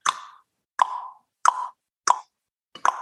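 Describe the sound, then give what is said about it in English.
Tongue popping against the roof of the mouth: five sharp, hollow clicks at a steady, unhurried pace, each standing alone with silence around it. “make the tongue that pop sounds like this.”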